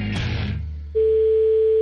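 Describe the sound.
Telephone dial tone as a collect call is placed: a short burst of noisy sound is followed by a steady, pure, unbroken tone that holds to the end.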